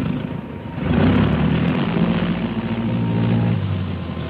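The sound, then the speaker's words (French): Aircraft engines starting up: a loud, thunderous droning rumble that swells sharply after about a second and then holds steady, with a throbbing low hum underneath. “Dans un fracas de tonnerre, les moteurs sont mis en marche.”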